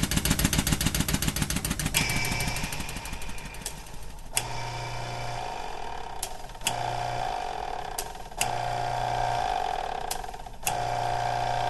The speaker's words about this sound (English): The sounds you're hearing now come from hydraulic oil pumps that move large steel pistons that we use to pressurize our experiments.